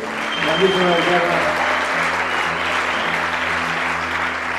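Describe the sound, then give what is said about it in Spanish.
Audience applause rolls on steadily for the whole stretch, dense and even, with a man's voice speaking over the first couple of seconds. “presento aquí a mi izquierda, Charlie, por favor, un aplauso. Aquí a mi derecha, JP, por favor, un aplauso.”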